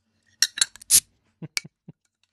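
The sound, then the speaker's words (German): A beer bottle being opened, heard as a few sharp glass and metal clinks and clicks with one brief broader burst in the middle, then a couple of softer knocks, all alone without talk. “Ich habe mir ein Bier geholt, ich muss jetzt mal Bier aufmachen.”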